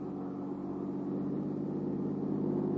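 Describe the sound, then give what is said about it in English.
Car driving along a highway beside the ocean, heard from the back seat as a faint, steady low engine hum and road rumble that stays even throughout with no distinct events. “I was in the back seat of a car driving along the highway beside the ocean.”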